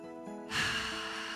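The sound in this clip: A deep breath drawn in through the nose during a spin workout, a soft rushing inhale that starts partway through and holds steady over quiet background music.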